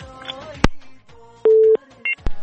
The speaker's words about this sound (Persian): بله تماس قطع میکنیم، میریم یک تماس بعدی را وصل میسازیم